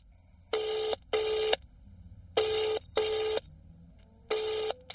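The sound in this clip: A telephone ringback tone sounds on a call to an office that goes unanswered. Five steady, even-pitched tone bursts arrive in a double-ring pattern with short pauses between the pairs. No one speaks.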